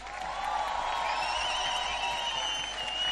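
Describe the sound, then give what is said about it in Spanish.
Applause from an audience answering a call for a big round of clapping, a dense, steady patter sustained evenly across a few seconds. “¡Aplauso fuerte!”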